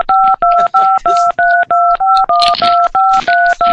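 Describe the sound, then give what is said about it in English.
Telephone keypad tones as digits are pressed: a fast run of about a dozen loud two-note beeps, evenly paced and separated by short silent gaps, with some rough noise mixed over them. “Fuck the beeping. This is not a valid entry.”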